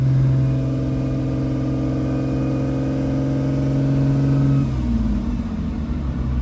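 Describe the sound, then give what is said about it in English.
A Ferrari GTO engine revving while driving: a loud, steady, even-pitched drone that changes abruptly near the end, dropping and roughening in tone, with no voices. “Driving the GTO is everything you'd think it would be. Raw, visceral, claustrophobic, and glorious.”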